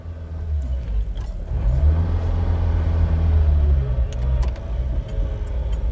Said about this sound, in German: und steigt in einen roten VW, um sich nach Hause fahren zu lassen.